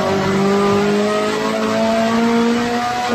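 A race car engine is held in third gear and revved to about 8,000 rpm on a track. It makes a loud, continuous buzzing drone whose pitch climbs slowly and steadily, with no voices.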